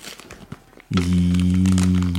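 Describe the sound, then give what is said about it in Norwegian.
Plastic trash-bag wrapping crinkles, then gaffer tape is pulled off in a loud, sustained buzzing rasp as the package is unwrapped. The rasp continues steadily to the end. “Den er veldig lekkert pakka inn i en søppelsekkpose. Det er ikke noe sånn covid-pulver eller noe sånt fra noen haters? Eller? Ja, hvem vet. Mm. Masse gaffateip, i hvert fall.”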